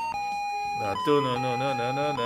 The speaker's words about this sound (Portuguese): Ó, a musiquinha que tá tocando aí.